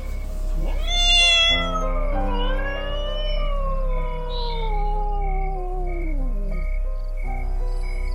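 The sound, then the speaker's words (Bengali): A cat yowls behind a cowshed: a short cry, then a long drawn-out wail that slowly falls in pitch, fairly loud and with no talk. “হঠাৎ গোয়াল ঘরের পেছনে একটা বিড়াল ডেকে উঠল”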